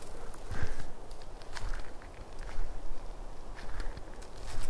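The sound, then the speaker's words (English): Faint, irregular crackling and rustling footfalls of an escaping deer, coming in several uneven bursts over a few seconds. “I don't know if you could hear that. Escaping deer.”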